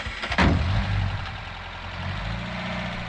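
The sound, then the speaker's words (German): A three-ton truck pulls away slowly on a dirt track with a low engine rumble. A sharp thud comes near the start, then the engine settles into a steady drone. “Der Dreitonner und dahinter die beiden Land Rover fahren langsam, ohne Lichter, den Feldweg zur Straße hinunter.”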